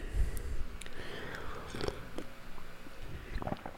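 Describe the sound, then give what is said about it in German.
Coffee being sipped: soft slurping and swallowing mouth sounds with a few small clicks, quiet and without talk. “mal kurz ein Schlückchen Kaffee trinken hier”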